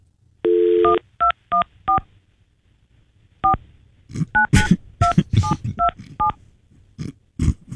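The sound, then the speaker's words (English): Touch-tone telephone dialing: a steady tone, then a run of short, crisp beeps of differing pitch, then a denser burst of tones tangled with rougher, noisy sounds. “Right, so now I call right back, yeah, right?”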